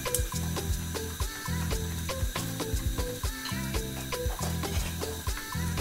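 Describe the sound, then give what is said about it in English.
Rapid clicking of a gas burner's igniter as it is lit for cooking palm oil rice, many quick sharp ticks in irregular bursts, fairly faint throughout. “Okay, please help me light my gas burner.”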